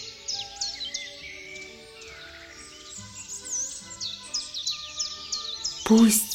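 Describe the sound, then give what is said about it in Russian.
A small bird chirps on a windowsill, loud and joyful. Many quick, high chirps trill almost without a break, and a sharp bright burst stands out near the end. “вышел на откос подоконника, сел, зачиликал громко, радостно, вспорхнул и, продолжая чиликать, улетел.”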